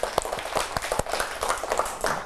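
Schoolchildren clapping for a pupil who gave a correct answer in class. Many quick, uneven claps keep up throughout.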